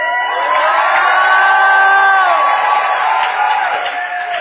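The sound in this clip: An audience shouts and cheers at full volume, a dense, sustained roar of voices with high whoops riding on top, holding steady before easing slightly toward the end.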